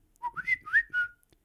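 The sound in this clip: A whistled imitation of a knockoff Samsung phone ringtone: a quick, bright phrase of about five stepping notes that climb and then settle, lasting just over a second, with no other sound.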